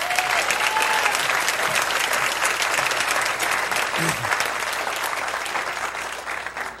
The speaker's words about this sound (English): I want to take a minute just to thank them, and let's clap for them.